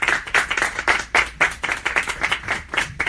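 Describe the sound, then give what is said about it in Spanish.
Audience applause after a poetry reading at a museum, made of crisp, rhythmic claps repeating at a fairly even pace and staying moderately loud throughout. “Muchísimas gracias a Nancy Pisano, que se dio al medio pique desde Buenos Aires para estar con nosotras, así que el aplauso súper grande para Nancy.”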